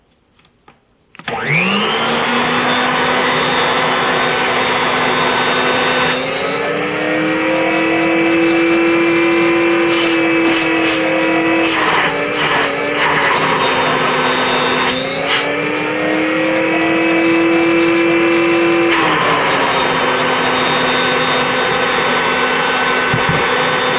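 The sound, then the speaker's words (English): A late-1930s or early-1940s Airway Sanitizer model 55 vacuum cleaner with a GE motor spins up to a loud, steady whining roar that runs throughout, its pitch shifting slightly a few times as it hums on, with no talk. “Here is the airway sanitizer model 55 using a GE motor. And again, this was made probably late 1930s or early 1940s.”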